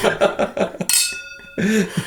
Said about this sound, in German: Wie so ein Stößchen.